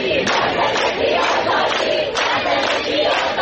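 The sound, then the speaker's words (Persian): Protesters chant slogans in Ekbatan, Tehran, a loud crowd of voices shouting in a steady, rhythmic beat of repeated bursts that continues throughout. “مردمی که در اکباتان شعار می دهند”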